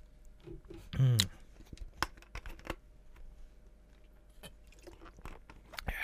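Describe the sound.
Someone drinks water, with a few soft gulps and wet mouth clicks, a louder swallow early on, then scattered faint clicks and smacks.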